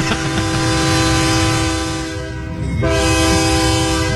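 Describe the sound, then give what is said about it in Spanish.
A horn sound effect like a train horn blares as a loud, sustained chord of steady tones over a low rumble, dips briefly partway through, then sounds fully again. “Pítele otra vez, que le toque el pito otra vez.”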